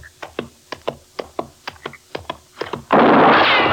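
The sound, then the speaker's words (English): Gunshots from a gun ring out in a Western standoff: a rapid, fairly regular series of sharp reports, then an abrupt loud, sustained burst of noise that carries to the end. “Start shooting, Chester. He can't get both of us. I ain't shooting no more. All right, then throw down your gun”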